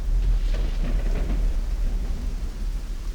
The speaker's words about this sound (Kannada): ಮಳೆಯ ಆರ್ಭಟದ ಸದ್ದು ಹಡಗೊಳಗೆ ಮೊಳಗ್ತಿತ್ತು.